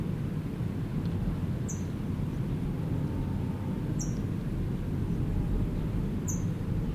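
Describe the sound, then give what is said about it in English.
An adult bird chips near a nest at Mount Tohi, carrying food in its bill. Three short, high chips come at spaced intervals over a steady low rumble. “Adult is chipping. It's got food in its bill, and I'm hoping it will go in, but I doubt it.”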